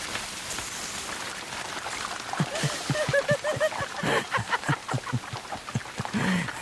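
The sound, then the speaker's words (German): Faint acid rain patters steadily, with scattered individual drops tapping irregularly and a soft hiss underneath. “Im sauren Regen rumzulaufen.”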